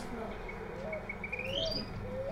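Small birds chirping in the city: thin, high whistled chirps and short rising notes scattered over a steady low background hum.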